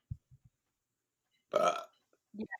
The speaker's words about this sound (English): Nothing. I burped. Nothing but a burp.